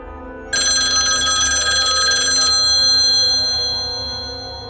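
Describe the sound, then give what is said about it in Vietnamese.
A telephone bell rings suddenly in a loud, rapid trill for about two seconds, and a ringing tone then lingers and slowly fades. “Chuông điện thoại đột nhiên vang lên”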